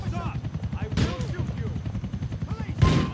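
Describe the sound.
Gunfire in the video game GTA IV, aimed at a helicopter: two sharp, loud bursts about two seconds apart, under continuous talking.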